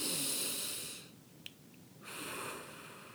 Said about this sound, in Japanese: これを呼吸と言いますね深く呼吸をするそれを深呼吸と言います